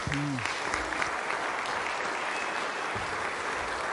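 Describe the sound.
Audience applause welcoming a speaker to the stage at a Christian gathering: a dense, steady wash of clapping that stays loud and even for the full four seconds.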